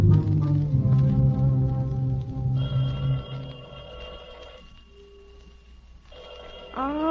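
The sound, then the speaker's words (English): A telephone ringing with steady, sustained bell tones in two bursts separated by a short gap, after a passage of louder sound that fades down. “I suppose the phone will ring all day again today.”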